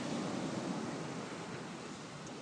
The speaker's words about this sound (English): so I'll just leave this running and you can get the atmosphere of what's going on Tynmouth Beach.